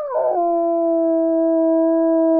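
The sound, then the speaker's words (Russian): A dog howls loudly from below in a dark, musty old industrial building. It is one long, sustained wailing tone that wavers briefly at the start, then holds steady and strong. “Где-то внизу, почувствовав меня, истошно завыла собака.”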